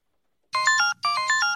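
Telephone ringtone heard while an outgoing call is dialed: two identical bursts of bright, stepped electronic tones separated by a short gap, following a moment of silence.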